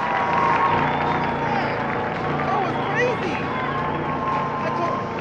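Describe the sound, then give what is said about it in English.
A crowd cheers wildly, a dense, steady roar of shouting and clapping that holds loud throughout, with a voice talking over it. “Man, listen to this crowd go nuts.”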